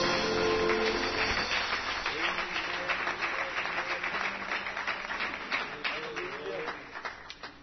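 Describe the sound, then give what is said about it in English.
A church audience gives a hand clap of praise to the Lord: many hands clap in a dense, even patter that gradually thins and fades toward the end. “Can you give the Lord a hand clap of praise?”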